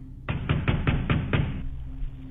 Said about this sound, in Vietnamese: Bây giờ thì không còn là tiếng quan tài bị kéo nữa, mà tiếng đập thình thình vào cánh cửa.